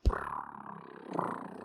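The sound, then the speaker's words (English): Rough, growly purring comes from a chocobo mount being ridden in a racing video game on a handheld console. A sharp burst opens it, then a continuous rumbling purr runs alone and swells again briefly near the end. “That's what the Chocobos sound like when you're riding. They're purring?”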